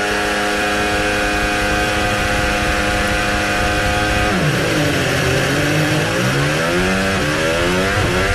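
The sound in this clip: Turbocharged Formula One cars accelerate off the grid at a race start, making a loud, continuous engine roar. A steady drone gives way to repeated climbing pitch sweeps as the engines rev and shift.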